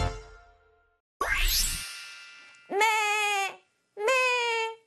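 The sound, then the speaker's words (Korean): A small young lamb bleats twice, two long wavering, buzzy calls separated by a brief silence, after a ringing chime and a bright rising sweep open the sequence. “이렇게 우는 작고 귀여운 어린 양이 있습니다.”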